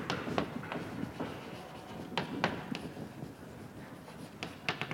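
Writing on a board during a lecture: an irregular series of sharp taps and short scratchy strokes, some louder than others, with no talk over them.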